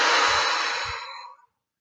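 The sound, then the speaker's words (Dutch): A deep exhale during a breathing exercise, blown out after a slow, full breath in: one long, airy rush of breath that starts strong and gradually fades away over about a second and a half. “Naar jouw navel, maak jezelf heel groot, blaas je maar helemaal op. En dan word je doorgestroomd en je blaast uit.”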